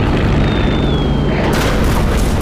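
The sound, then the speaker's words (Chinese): Heavy, continuous rumbling roar from boats being bombed on the water, dense and loud throughout with no separate blasts standing out. A thin whistling tone drifts slightly downward early on. “那边的船好像都被炸了。”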